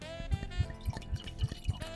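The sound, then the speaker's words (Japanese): Red wine, Mann's Wine Solaris Chikuma River Merlot 2021, poured from the bottle into a glass in an even, rhythmic series of soft glugs, about seven in all, quiet and with no talking. “本日ご用意したワインは、マンズワインソラリス千曲川メルロー2021です。 はい、 はい、早速ついでみたいと思います。”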